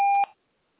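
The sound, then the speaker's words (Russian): A voicemail system's recording beep: a single short, steady electronic tone lasting about a quarter second, then near silence. “Запись сообщений начнется после сигнала.”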